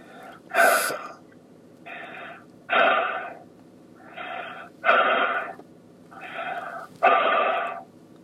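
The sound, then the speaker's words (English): During a healing prayer, a person breathes heavily in and out through the mouth in a series of loud, rasping bursts spaced about a second apart. The breaths alternate between softer and stronger gusts. “Just breathe in and out 5 times heavily with your mouth.”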